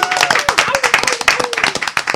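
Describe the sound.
A studio audience clapping and cheering: quick, rhythmic, loud claps with a whooping voice sliding downward over them throughout.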